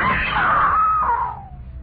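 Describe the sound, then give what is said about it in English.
A person screams in fright: one loud, high, sustained cry that sags in pitch and fades away at the end, alone with no words. “Yeah. I screamed.”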